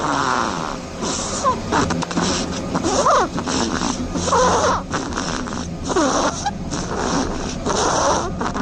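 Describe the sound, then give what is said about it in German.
A hazel dormouse snores in a rapid run of raspy, squeaky bursts with short gaps between them. The bursts carry faint chirp-like tones and stay at a fairly even level, with no talk. “Tja, ganz erstaunlich, eine schnarchende Haselmaus.”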